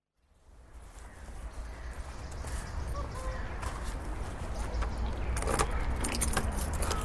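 Interior rumble of a small car on the move, a broad steady roar that builds gradually, with keys jingling and rattling on top near the end.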